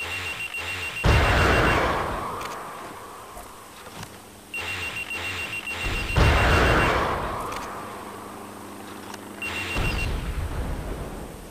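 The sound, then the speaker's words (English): A high, steady electronic missile lock-on tone from a Stinger missile training mission in a video game sounds three times, each stretch overlapping a loud roaring rush of noise that swells and fades. “You'll hear an audio tone when your missile has achieved a lock.”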